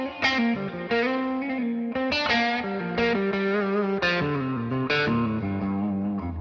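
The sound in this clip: Electric guitar runs through a delay pedal with distortion added, playing a series of sustained, gritty notes and chords. Each note is followed by soft echoing repeats that stay tucked behind the main tone, fairly loud with no talk.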